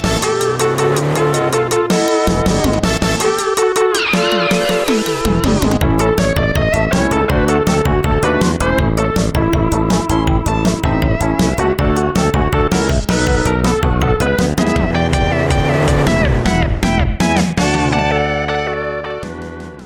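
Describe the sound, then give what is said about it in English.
Theme music from the Super Nintendo video game Stunt Race FX plays continuously, dense with quick rhythmic notes and layered melodic lines at a steady level, fading slightly at the very end. “Yeah, so it's the themes of Stunt Race FX on the Super Nintendo, so it sort of works.”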